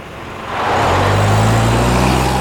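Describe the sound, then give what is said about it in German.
A jeep engine driving away: a low, rumbling motor sound swells in after about half a second, then holds loud and steady with a deep droning hum and no voices. “Der Jeep! Der Betrüger haut ab!”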